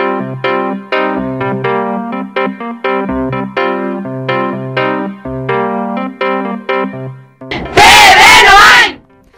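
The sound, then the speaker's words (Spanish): A women's basketball team shouts its battle cry together, a loud burst of many voices lasting about a second. It follows a longer stretch of bright, plucked melodic music. “Este es el grito de guerra de las jugadoras del Club Baloncesto Noain”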